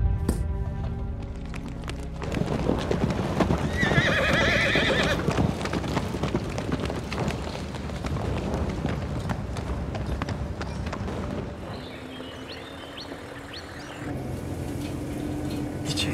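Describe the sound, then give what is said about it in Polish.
Saddled horses set off with a steady, rapid clatter of clip-clopping hooves. A whinny rises in the middle, and the dense hoofbeats carry on loudly throughout. “Każ siodłać konie, ruszamy od razu.”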